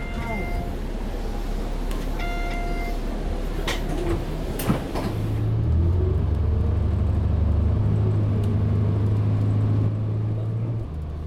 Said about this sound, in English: I'll be sitting on this bus for an hour. That's how long it takes to get to the airport